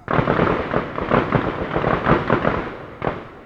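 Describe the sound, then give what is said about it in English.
Gunfire echoing from a nearby gun range: many sharp, dense cracks follow one another in rapid, uneven bursts. The echoes run into each other, keeping the sound loud and crowded throughout. “You can probably hear the gunfire in the background of that clip.”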